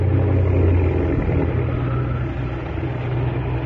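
Small aircraft engine droning as the plane flies low through a narrow rocky gorge: a loud, steady, low-pitched hum with a rough rumble, holding evenly throughout with no talking.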